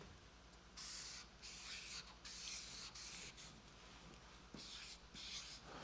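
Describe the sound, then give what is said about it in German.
A pen scratches across paper while drawing a small plant: quiet, rough strokes come in many short bursts separated by brief pauses, with no voices. “Ich zeichne hier ein Pflänzchen.”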